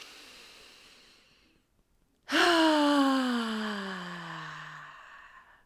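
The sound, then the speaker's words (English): A deep breath is taken during a guided EFT tapping exercise: a soft, airy inhale is followed after a short pause by a loud voiced sigh whose pitch slowly falls as it fades. “Take a deep breath in.”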